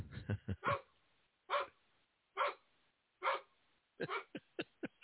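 A female dog barks many times, her sharp barks echoing through a PA system, coming in quick bursts of several barks separated by short pauses, fairly faint and alone.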